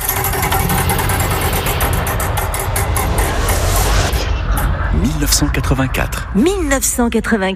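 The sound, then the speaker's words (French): A radio quiz game's wheel of time being spun: a loud, dense, rapid rattling whir that runs for about four seconds, then continues under a voice that begins speaking. “Cette année-là, vous allez la décider vous-même en arrêtant la roue du temps que je lance tout de suite.”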